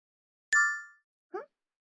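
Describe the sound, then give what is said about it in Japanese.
Phone app notification chime from the game Princess Connect: a bright ringing chime that fades over about half a second, followed by one short, softer tone. “ん？お姫様コネクトの通知か？”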